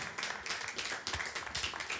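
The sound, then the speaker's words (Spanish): A church audience claps for the Lord, many quick irregular hand claps overlapping at low volume throughout. “Aleluya, dele palmas al Señor.”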